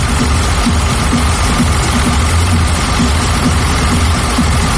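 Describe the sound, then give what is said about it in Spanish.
Tractor engines running at a farmers' protest, a loud, dense and continuous rumble with low throbbing underneath and no clear breaks throughout. “Sonido de motor de tractores, música, consignas.”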